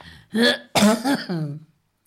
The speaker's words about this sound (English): And, yes, I've got that darn cough back. Don't seem to be able to kick it.